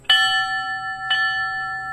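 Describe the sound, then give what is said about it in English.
A ceremonial bell is struck at a downtown Sparta memorial for firefighters killed in a terror attack. Two clear, bright strikes about a second apart each leave a sustained metallic ring. “20 bell strikes at a ceremony in downtown Sparta helping remember firefighters who lost their lives during a terror attack 18 years ago today.”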